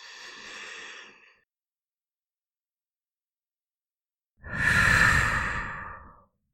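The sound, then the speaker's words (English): Slow deep breaths: two long, airy breathing sounds separated by a few seconds of silence, the second louder and fuller, with no voices. “And so, taking 3 deep breaths,”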